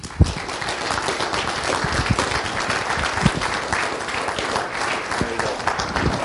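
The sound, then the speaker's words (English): Audience applause welcomes a speaker to the stage at a morning gathering. Dense, continuous clapping runs for about six seconds, with a few sharper individual claps standing out above the steady wash. “Let's bring him up with a hand and bring it this morning, Jeff.”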